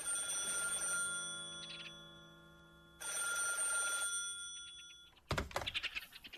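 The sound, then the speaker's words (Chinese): A telephone bell ringing in two long, trilling bursts with a short pause between them, followed by a brief clattering knock at the end. “这时电话铃响了，”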